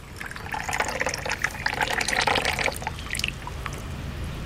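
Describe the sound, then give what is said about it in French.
Hot water poured for matcha tea makes a steady, soft splashing trickle that rises and falls gently for several seconds, fairly quiet, with no talking over it. “Donc là, vous allez mettre de l'eau.”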